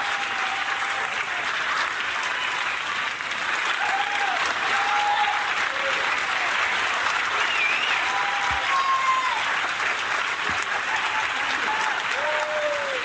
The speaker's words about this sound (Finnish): Pistetään tässä vaiheessa aplodit Henrikille tästä.